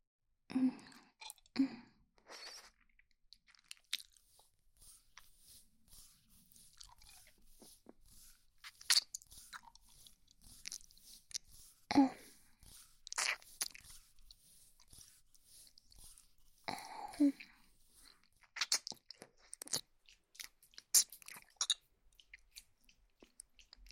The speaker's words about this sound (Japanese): 耳舐めてあげるね。